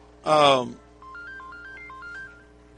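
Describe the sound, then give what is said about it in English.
Mobile phone ringtone: a stepped electronic melody of short, clear tones that hop between a few pitches for over a second, following a brief burst of voice. “I forgot to turn my phone down.”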